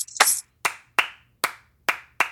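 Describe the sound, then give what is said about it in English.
Six sharp hand claps in a Sea Islands polyrhythm clap pattern from a Gullah Geechee spiritual practice. The claps are crisp and loud, each separated by silence, in an uneven rhythm with no voices. “which people call a polyrhythm or a Sea Islands clap.”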